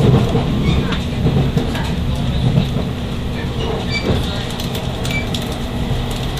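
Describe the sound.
A train pulls into a station platform, a limited express on the Hokuriku line bound for Fukui and Kanazawa. It makes a steady, loud rumble with faint wheel clatter and brief squeals that carry through the whole clip.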